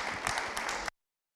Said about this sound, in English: Let's give one another a hand, and thanks for coming out tonight.